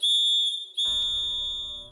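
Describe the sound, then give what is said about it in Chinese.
A traditional handmade clay whistle toy, two-holed and two-toned like a small ocarina, is blown in two sustained shrill notes, the second following a short break and carrying a fuller, breathier tone. “也可以说它是一个带来幸福的泥哨子，因为我们这边用泥巴做出来的每一件物品，它都可以发声，它都会叫。 啊、就吹吗？”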